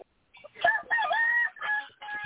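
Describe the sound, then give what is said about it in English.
Chickens squawking and crowing in a coop where a fox has gotten in: several loud, harsh, strained calls in bursts of varying length, with short gaps between them. “You over there messing with goddamn chickens.”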